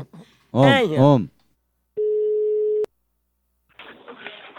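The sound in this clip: A telephone ringing tone sounds as a call is placed: one steady, even beep lasting under a second, with a brief burst of other sound before it and voices after it.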